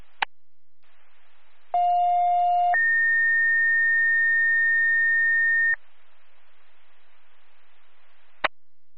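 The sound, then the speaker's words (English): A second set of radio dispatch paging tones plays: a short, steady lower beep of about one second steps straight into a longer, higher tone of about three seconds, bracketed by clicks and light static. “clear GMS status of your crew. Go GMS second tones.”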